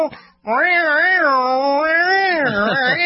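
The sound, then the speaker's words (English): A human voice imitates a dominant Siamese cat yowling: a loud, drawn-out wail, preceded by a brief quiet breath, that holds for about two and a half seconds with a wavering, warbling pitch. “the Siamese cat is dominant. It's sitting there going,”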